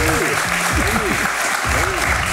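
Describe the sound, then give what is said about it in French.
Applause from a live audience greets a guest: dense, steady clapping fills the whole stretch, with a voice sounding over it. “Les applaudissements aussi, ou les applaudissements tout court pour Ebi Brouzak, s'il vous plaît”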